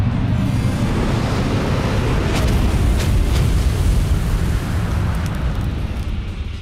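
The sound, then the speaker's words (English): A fiery explosive roar from the Flame Apocalypse attack in a turn-based monster battle video game: a loud, continuous, rumbling blast with crackling bursts, easing off slightly near the end. “Foe Hyper Hatherillion used Flame Apocalypse.”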